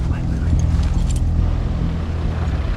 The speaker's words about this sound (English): truck drives through the grass. Its lights shine.